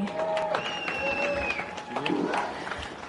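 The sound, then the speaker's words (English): After the winners of a motorsport race are announced, the audience breaks into steady clapping and crowd noise, a dense, continuous wash of applause with voices mixed in. “please make some noise and put your hands together”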